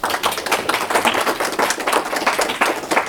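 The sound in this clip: Audience applause welcoming a guest speaker: dense, steady clapping from many hands that fills the whole stretch at an even, fairly loud level, with no voices over it.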